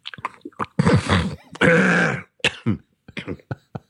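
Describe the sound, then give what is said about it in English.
Someone scratches the back of their throat with their tongue, making guttural, rasping hawking noises. Two long, harsh rasps stand out among short clicks and wet smacks, with no talking. “I'm trying to scratch the back of my throat with my tongue, which is quite difficult, but I have a very long tongue. It sounds disgusting.”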